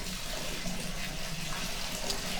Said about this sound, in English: They're like, okay, they're almost coming out of the tub. Okay, I think that's enough water.